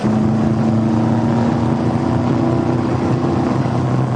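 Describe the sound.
A car engine drones loudly as the car drives fast, a continuous, even roar with a low tonal hum running underneath and no voices.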